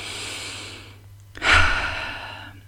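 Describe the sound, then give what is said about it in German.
Breathing in and out: a soft, airy breath of about a second, a short pause, then a louder, longer breath that tails off. A faint low hum runs underneath throughout. “also zum Ein- und Ausatmen. Das können wir jetzt auch gerne noch einmal machen.”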